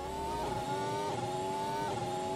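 A Formula 1 car on an onboard lap of the circuit, its engine holding a loud, steady, buzzing note with a couple of brief small shifts in pitch and no voices.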